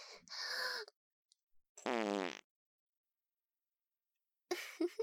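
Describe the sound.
A single buzzy fart lasting about half a second, loud and low-pitched, standing alone between quieter stretches of soft noise and silence.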